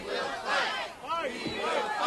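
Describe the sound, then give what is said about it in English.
A crowd gathered outside the Supreme Court over a challenge to the 1965 Voting Rights Act, with many voices shouting and calling out together in overlapping, rising and falling cries. “Outside the court, a crowd gathered, including members of Congress and veterans of the fight for voting rights in the South.”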